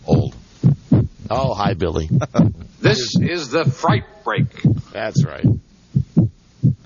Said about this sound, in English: You hear that sound? Sound. It's the sound of a heartbeat. A frightened, terrified heart.